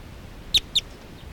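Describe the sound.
A bird calling with two short, high chirps about a fifth of a second apart, standing out clearly over a faint background hiss.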